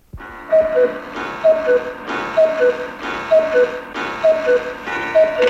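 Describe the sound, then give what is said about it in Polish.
Cuckoo clock call, not a real cuckoo bird: six paired high-then-low notes in a steady, regular rhythm, heard over continuous busy background sound. “No jest to kukułka zegarowa de facto, ale bo to nie jest głos prawdziwej kukułki samca, tylko jest to kukułka typowa zegarowa”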